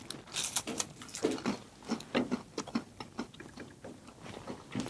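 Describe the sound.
Crisp crunching and chewing as someone bites into a chocolate waffle protein bar made with cocoa powder, cocoa butter and milk chocolate. Many small, irregular, crackly clicks pile up quickly.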